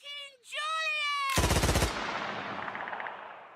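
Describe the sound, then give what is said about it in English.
Gunfire sound effect: a short high tonal squeal, then a loud burst of rapid machine-gun shots that ends in a fading, ringing decay. “Here is the sound of Mort the lemur walking in, immediately being gunned down by Ezra and his gun.”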